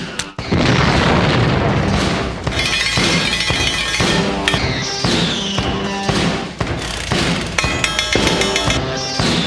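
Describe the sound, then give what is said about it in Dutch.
A big explosion sound effect, a loud rumbling boom that sustains throughout with dense crackling and clinking like falling glass and debris. “ome Henk, die eindigt zijn verhaaltjes altijd met een hele grote explosie.”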